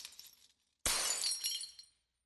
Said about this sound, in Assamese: তাৰ পাছত সেই নীৰৱতা ভংগ কৰি আইনা ভগাৰ থনৰ থনৰ শব্দ।